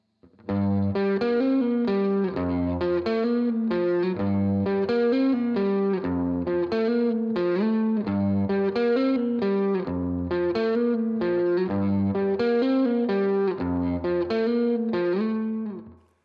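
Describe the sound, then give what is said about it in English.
Electric guitar run through a compressor driven hard with the input at full for a country tone, playing a steady, repeating picked pattern whose loudness stays squashed and very even throughout. “It's really going to squash the loudest parts of the signal. Our input is at full, so we can really drive the compressor to maximize its effect, and our output is set to taste to integrate with our rig.”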